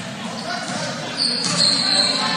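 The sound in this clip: A player dribbles a basketball on a court during a game against Fort Recovery. Muffled bounces sound under a constant wash of crowd noise that swells slightly in the second half.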